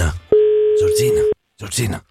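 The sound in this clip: A telephone line tone sounds as a prize winner is called on a rotary-dial phone: one steady, even tone held for about a second, with people talking just before and after it.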